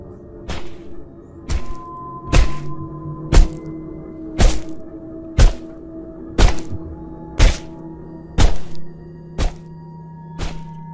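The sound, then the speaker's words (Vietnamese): Heavy knife chopping as a woman swings the blade again and again: eleven evenly spaced, dull thunking strikes with sharp attacks, each fading quickly over a low steady hum, with no voices. “Ả vung con dao chặt liên tiếp.”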